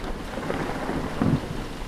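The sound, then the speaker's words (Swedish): Thunder rumbles low during a storm, the lightning striking a hospital's transformer station. A soft, steady rain hiss lies underneath, with the rumble swelling briefly near the middle before settling back. “En blixt slog ner i transformatorstationen och de fick inte på någon reservström.”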